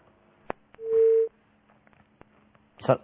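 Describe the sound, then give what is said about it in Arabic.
A brief steady telephone line tone after a dropped call sounds for about half a second, moderately loud and level in pitch, with a few sharp clicks scattered before and after and a short burst of noise near the end. “طيب الاتصال انقطع مرة تانية على صاحب الاتصال أو صاحب الاتصال يحاول الاتصال بنا مرة تانية.”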